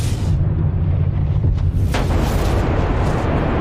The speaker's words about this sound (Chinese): 这就是宇宙大爆炸